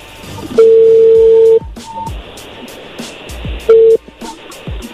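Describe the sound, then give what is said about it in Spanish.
A telephone call ringing out on a phone line: a steady, mid-pitched tone lasting about a second, then a second, shorter tone a few seconds later, with clicks and line noise between them. “A ver, ahí se está marcando por última, a ver si nos contesta.”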